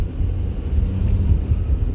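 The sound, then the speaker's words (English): Car driving at the speed limit on a winter evening: a steady, continuous low engine and road rumble with no voices over it. “I'm driving the speed limit. I don't like to drive too fast.”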